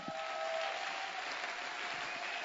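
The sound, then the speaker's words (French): An audience at a worship service applauding to acclaim the Lord: steady, dense clapping with an even, hissing texture runs throughout at a faint level, with no distinct cheers standing out. “Si tu le crois, tu dis amen très fort. Et nous acclamons très fort le Seigneur.”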